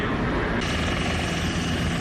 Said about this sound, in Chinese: 随着塔台指令下达，陆军第72集团军某旅多型直升机依次升空